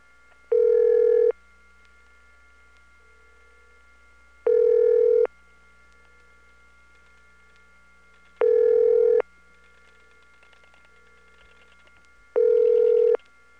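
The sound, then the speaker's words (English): Telephone line tone from a group of oscillating trunks running from a central office to a company, sounding as four evenly spaced buzzy bursts over a faint, steady hum of line tones, with no talking. “There's a whole group of oscillating trunks from the central office to the company, and after she hangs up, I'll turn up the volume so you can hear it.”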